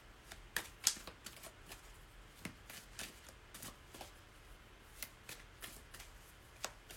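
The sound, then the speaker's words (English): Playing cards dropped and handled: many quiet, crisp snaps and flicks arriving in an irregular rhythm, a few sharper than the rest, over a low, steady background hiss. “And I'm dropping my cards.”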